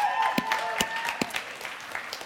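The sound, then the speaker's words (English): Church audience applause breaks out, a steady bed of clapping with a few sharper claps standing out and faint voices or tones running through it. “It's so encouraging when I announce this and just instant round of applause.”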